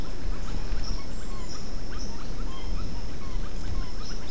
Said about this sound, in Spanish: Es una gran bandada de tangras. También está Miophobus Pulcher.